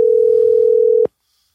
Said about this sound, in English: He's not picking up his phone.